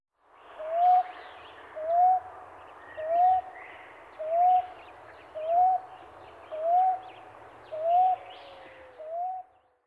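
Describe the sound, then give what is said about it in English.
A common ground dove calls in a steady series of eight soft, low coos. Each note lifts slightly in pitch, and they repeat evenly about a second apart with nothing else heard. “Common Ground Dove.”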